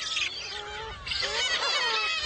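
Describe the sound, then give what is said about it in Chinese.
Black-faced spoonbill chicks squabble over food on an island in early summer. Their overlapping squeaky calls rise and fall in a continuous, fairly faint tangle that grows busier in the second half. “现在是古吉岛的初夏时节，雏鸟们为争抢食物开始了吵闹”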